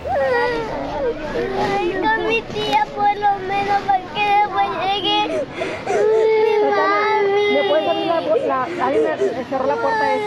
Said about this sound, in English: And now, in a recording first obtained by ProPublica, you can hear the desperate sobbing of children.